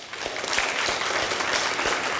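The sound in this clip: Applause from a church audience at Colonial Hill welcoming a guest pastor: dense, steady clapping that holds at an even, fairly loud level from start to finish.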